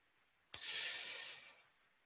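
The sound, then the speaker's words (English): One slow breath during meditation starts abruptly, then a soft, airy hiss holds steady for about a second and fades. It is faint and stands alone, with no talk. “We can also use the meditation word of Buddho to go along with this. Um, so as we breathe in Buddha and out Do.”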